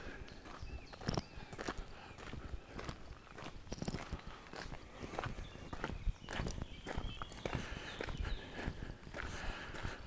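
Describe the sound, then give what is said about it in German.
Footsteps walking through woodland, passing from mixed forest into conifer forest: many steady, soft rustling steps on the forest floor, fairly faint and without talk. “jetzt laufe ich gerade von dem Mischwald äh, in den Nadelwald rein”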